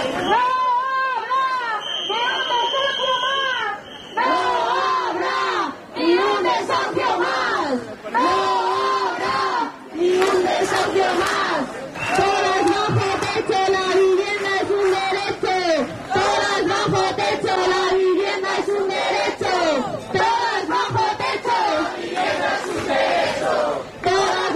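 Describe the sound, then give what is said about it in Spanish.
A protest crowd chants loudly and steadily at a housing rally in front of the government delegation in Cantabria. Rhythmic massed voices continue throughout, with brief dips between chant phrases. “Son algunos de los sonidos que se han escuchado en la concentración frente a la delegación de gobierno organizada por el Sindicato de Vivienda de Cantabria”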